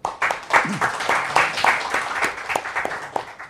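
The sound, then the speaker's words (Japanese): An audience claps during a group workshop after an emotional exercise. Irregular, fairly distinct claps come from a modest group, rising quickly and tapering off toward the end. “拍手皆さん”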